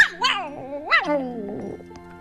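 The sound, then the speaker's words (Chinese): A shaggy dog yelps in pain as a hair is yanked from its tail: two high, sharp cries that swoop up and down in pitch, followed by a lower whining tail-off. “他使劲一拽，拔下了一根狗尾毛，疼得毛毛狗麦克拉瑞蹦到了半空里。”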